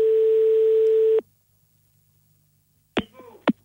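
A telephone line tone after a call is cut off: one loud, steady, single-pitched tone lasting about a second, then silence, then a couple of sharp, short sounds near the end.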